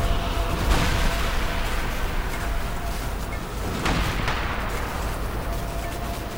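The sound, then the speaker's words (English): A gun fires with a few sharp cracks over a dense, steady rumble of crackling energy, as power is poured into the weapon before it goes off at random. “The gun randomly fires off into the distance.”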